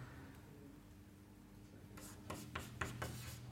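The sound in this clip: Writing on a board during a physics lecture: after a quiet start, several short, scratchy rasping strokes follow one another, faint and without talk.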